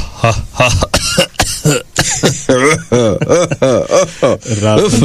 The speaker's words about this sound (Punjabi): ਹਲਕੀ ਜਿਹੀ ਖਾਂਸੀ ਹੋ ਗਈ ਹੈ।